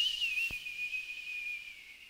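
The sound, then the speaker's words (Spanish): A single sustained whistle holds a high, thin tone, dipping slightly at the start before staying steady. It is fairly faint, with a brief low thud near the beginning and no talking. “Y por último un silbido.”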